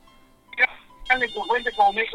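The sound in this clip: A telephone rings with an incoming call on a busy call-in line. The steady electronic ringtone runs faintly beneath talking.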